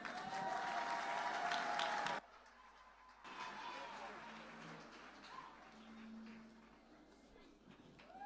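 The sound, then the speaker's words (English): Audience applause welcoming a performer onto the stage at a church service, a loud, dense patter of many hands for about two seconds that cuts off abruptly, leaving a quieter background with voices. “Ladies and gentlemen, let's put our hands together and welcome Benjamin Masudi.”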